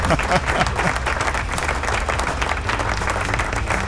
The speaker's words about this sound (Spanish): Ahora sí me escucharon, el aplauso.